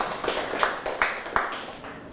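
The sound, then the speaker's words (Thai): Classmates in a classroom clap in unison for a group of peers, a patterned 'one heart' cheer: a few sharp, evenly spaced group claps land in a steady rhythm over constant background noise. “ปรบมือให้เพื่อนหัวใจหนึ่งดวง”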